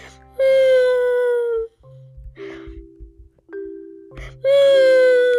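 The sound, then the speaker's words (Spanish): Drawn-out voiced wails of the little turtle Tortuguín, crying and whimpering while lost away from home in a lagoon. Two long, loud, tonal cries glide slightly downward and are separated by a quieter stretch of low, broken sounds. “llora, llora y llora. Gime, gime y gime.”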